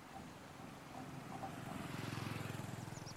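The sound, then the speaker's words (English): A scooter passing along a street gives a faint, low buzzing engine drone that grows louder toward the end as a pulsing motor tone comes through. “Reading his lips, we can maybe make out a word or two before a scooter passes by and our view changes.”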